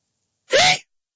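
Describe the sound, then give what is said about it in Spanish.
A single short sneeze, one sharp, breathy burst of under half a second, heard alone against silence. “Ah, discúlpame. Por fin pude estornudar al aire, mira.”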